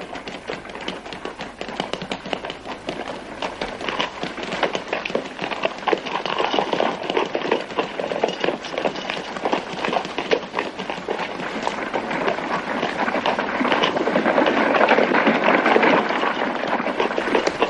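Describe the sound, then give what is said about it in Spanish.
Galloping horse hooves from a 1949 Western as a soldier rides ahead of a cavalry column: a dense, steady stream of many rapid hoofbeats, loud and continuous throughout, rising slightly toward the end. “Tyree se adelanta al galope mientras la columna avanza más despacio.”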